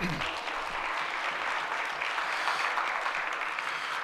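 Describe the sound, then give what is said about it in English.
An audience at a church gathering applauds as a pastor is welcomed. The clapping is dense and steady, holding at an even level for about four seconds without a break. “Thank you so much, Miss Kimmy. Welcome. Give her a hand.”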